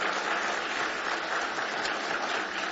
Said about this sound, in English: God bless this family. Give them a nice hand this morning.